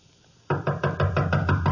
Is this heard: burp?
no